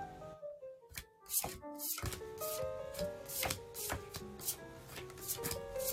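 Tarot cards being shuffled: soft, quick riffling and snapping bursts that repeat many times at a quiet level over a faint steady tonal background.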